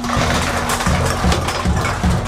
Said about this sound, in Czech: vysypává do malého popelářského auta nové koše